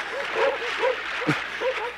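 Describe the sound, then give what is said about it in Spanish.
Dogs barking while swimming among ice floes, with a few short, high yelps rising out of a continuous rushing noise. “¡Dejen de ladrar y naden! ¡Naden!”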